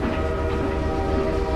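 Railway noise from a train starting to move: a steady, dense rumble of the rail carriages with a sustained tonal hum running through it, even and unbroken for the whole moment, with no voices.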